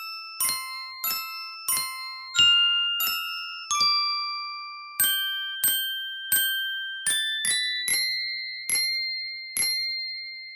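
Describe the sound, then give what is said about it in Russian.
Ringing bell-like notes from an icicle phone, a winter instrument made of icicles, being struck one by one in a slow melody. Many clear chiming tones change pitch and each decays quickly, with no talking. “Сосулька-фон – уникальный зимний инструмент.”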